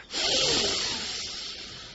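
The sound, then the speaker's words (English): One deep exhale during pranayama breathing practice, a loud breathy rush that starts abruptly and then slowly fades over about two seconds. “Let's just do a few simple pranayams. We start by exhaling very deep.”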